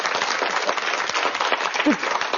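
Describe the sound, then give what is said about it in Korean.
Audience applause during a church gathering, a dense, steady wash of clapping that holds at an even level for the whole stretch, with no pauses or swells. “박수 한번 주세요.”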